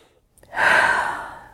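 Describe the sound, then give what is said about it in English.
A big deep breath drawn in and let out slowly during a tapping exercise, a single soft breathy rush that swells quickly and fades over about a second, alone with no talk. “Big deep breath.”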